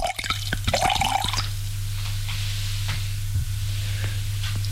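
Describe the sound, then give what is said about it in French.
Wine poured from a two-litre plastic bottle into a glass: a short gurgling pour whose tone rises as the glass fills, then a few scattered drips over a steady low hum. “Il se sert un verre de vin Marnia. Une bouteille en plastique de 2 litres.”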